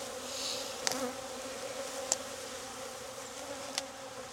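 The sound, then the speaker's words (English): Honeybees buzzing around an opened hive: a faint, steady hum runs throughout, broken by three sharp clicks. “All right, gloves are coming on. Just cause I gotta put this hive back together. Something turned them on, just there at the end.”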